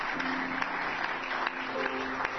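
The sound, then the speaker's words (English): An audience claps their hands in praise during a church service: a steady, fairly faint patter of many hands that runs evenly through the whole clip. “Why don't you just give the Lord a hand clap of praise?”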